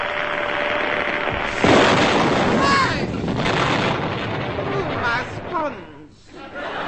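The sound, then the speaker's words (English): An old-fashioned candle flash gun with a cardboard trigger release goes off as a single loud, sharp burst, surrounded by voices talking. “Super Junior candle flash gun with cardboard built-in trigger release. Say cheese.”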